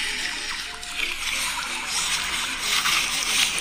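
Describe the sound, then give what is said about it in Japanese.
Stones thrown onto a frozen, partly melting pond skitter across the ice, making a continuous bright, hissing rush threaded with high ringing, chirp-like tones that swell and ebb at a moderate level. “これが石が 氷の上を走っていってる。”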